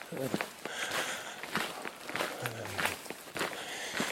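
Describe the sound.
Footsteps of a person walking alone through a small town, a steady, evenly paced series of many soft steps at a quiet level.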